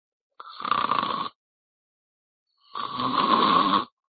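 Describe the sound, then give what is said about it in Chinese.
A voice imitates snoring: two long, rasping snores, each about a second or more, separated by a silent pause. The second snore runs slightly longer and fuller than the first. “回到东屋，把门掩上，时间不大，呼噜声出来”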